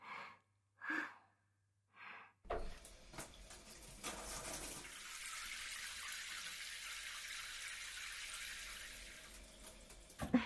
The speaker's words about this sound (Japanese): 泡を流していきましょうね。